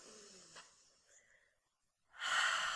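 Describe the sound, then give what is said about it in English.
A deep breath drawn in during a guided relaxation exercise, heard as a loud, breathy rushing inhale near the end after a stretch of faint, quiet sounds. “let's take a nice deep breath to start with. Take a nice deep breath with me.”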